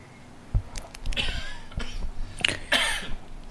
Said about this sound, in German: Und ich rede mich schon in meinen Husten hinein.